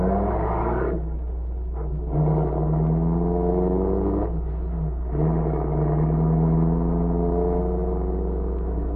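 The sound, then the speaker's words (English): A car engine drones as the vehicle drives away, a steady low hum whose pitch shifts a few times, as if changing speed, heard alone without voices. “the spies, Fortier and Grisanti, came out of the house across from the grocery store and drove away.”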